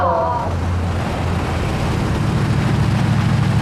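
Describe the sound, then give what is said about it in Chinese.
Loud, steady low engine rumble from a Mercedes G-Class SUV driving toward a group of people, a deep continuous drone with no clear breaks. “哎，你们快看那辆大 G， 好像整个金海就这一辆哎。 谁的车？ 长征集团的。 还往我们这边走，”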